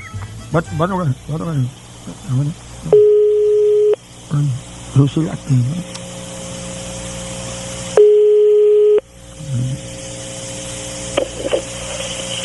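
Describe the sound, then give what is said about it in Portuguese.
A steady telephone tone sounds twice after a call drops, each burst about a second long. Men talk between and around the tones. “a ligação caiu, viu?”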